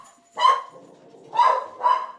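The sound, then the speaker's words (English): A poodle and cocker spaniel mix barks three times, loud sharp barks with a short gap after the first and a quicker pair at the end. The barks are heard alone, with no voices. “the bark can be a little annoying, but I really do love her. She's one of those designer mutts, you know, part poodle, part cocker spaniel.”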